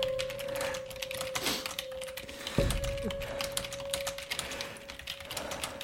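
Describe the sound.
Quick, irregular clacking of keys as a text is typed out, with many light taps at a fairly quiet level and one heavier thump partway through.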